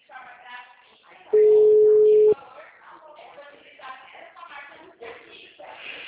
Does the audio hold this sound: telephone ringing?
yes

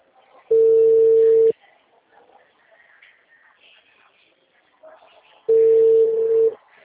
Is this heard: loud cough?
no

